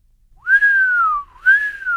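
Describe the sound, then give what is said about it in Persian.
A person whistles two long notes, each rising briefly and then sliding slowly downward in pitch, the first longer than the second, clear and loud against silence. “چارلی سوت زد.”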